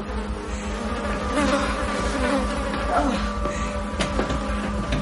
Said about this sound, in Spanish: Pasa al desván entre una nube de moscas.